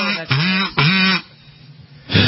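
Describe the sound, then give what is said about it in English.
A person imitates a goose with two loud, harsh, nasal honks in quick succession, then a pause before a third honk starts at the end. “It's like the worst noise in the universe. That's my, my goose impression.”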